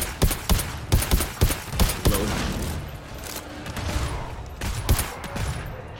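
Video game shooter gunfire: many sharp shots crack in quick succession for about two seconds, then a lower rumbling stretch, then a few more loud shots near the end.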